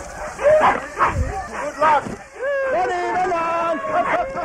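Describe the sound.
Husky sled dogs in Finnish Lapland bark and yip in a run of sharp, excited bursts, then break into a stretch of high, wavering whining and yelping.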